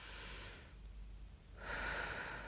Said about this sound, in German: Und einatmen, tief einatmen. Und aus. Und ein.